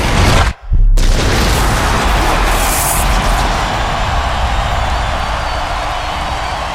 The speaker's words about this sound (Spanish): Con esa explosión de fuegos artificiales,